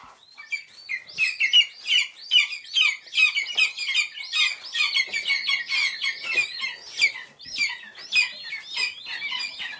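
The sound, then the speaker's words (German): Lesser spotted eagle chicks at a hand-rearing station near Potsdam call loudly while hungry. Many shrill, high peeps and chirps overlap in a dense, continuous stream, with no talk. “Sie sind klein, grau, haben Knopfaugen, sind unfassbar flauschig und sehr laut, wenn sie hungrig sind, die Schreiadler-Küken.”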